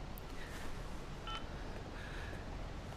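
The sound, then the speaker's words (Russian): Telephone keypad tones sound as a number is dialed: a few faint, short beeps over a low background hiss. “Да, я сейчас больницу наберу, потом тебе перезвоню.”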